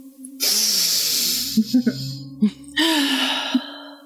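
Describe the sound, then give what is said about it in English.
A big inhale taken while smelling a peppermint and ginger drink: two long, breathy rushes of air separated by a few short clicks, with a faint voiced tone underneath. “I'm going to take a big inhale.”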